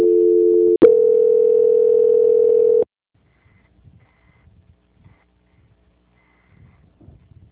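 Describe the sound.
A telephone call transfer tone plays as a steady two-pitch hum, breaks off with a click, then continues as a single steady tone for about two seconds before cutting to near silence.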